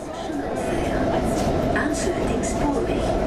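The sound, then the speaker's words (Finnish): A subway train rumbles at a metro station in the EU quarter of Brussels. The roar is steady and loud, with rail clatter and muffled voices beneath it. “Ranskan entisen ulkoministerin Robert Schumannin nimeä kantava metroasema on Brysselin EU-kortteleiden sydämessä.”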